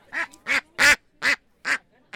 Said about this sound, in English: We have with us two ducks here. We have a Welsh Harlequin duck, and we have a Cayuga duck.